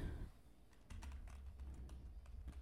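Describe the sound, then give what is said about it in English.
Typing on a computer keyboard: a quick, irregular run of many soft key taps, faint and heard alone without talking. “Or I'm going to type in Thanksgiving food”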